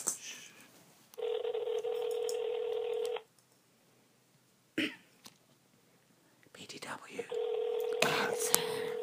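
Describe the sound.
Telephone tones as a call is placed to someone's mom: two long, steady buzzing tones separated by a quiet gap with a short noisy burst, and faint throat-clearing and shuffling sounds around them.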